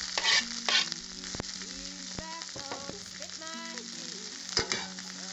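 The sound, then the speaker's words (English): Vegetables (mushrooms, zucchini, carrots, peppers, garlic and onion) frying in a hot pan, a steady sizzle broken by sharp clicks and scrapes of stirring, with no voices. “We're going to fry up these veggies till they're just brown.”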